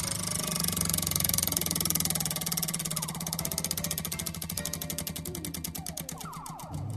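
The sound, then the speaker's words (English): A prize wheel spins, its ticking rapid at first and then slowing steadily as the clicks spread farther apart, over a low droning background. “let's get over to the wheel and give it a spin.”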